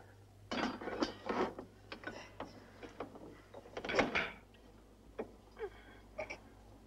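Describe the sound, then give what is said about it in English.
A large spanner tightens a nut in a ship's engine room, making many irregular metallic clicks, ratcheting and knocks. The sounds are fairly faint and sit over a steady low hum. “Down in the engine room, Watts, wearing his vest and covered in grease, tightens a nut with a large spanner.”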